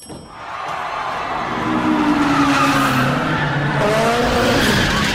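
Squealing tires and a roaring engine from a race car drifting in a street race in Tokyo: a sustained, loud screech that builds after a brief dip and holds, with the engine tone shifting near the end.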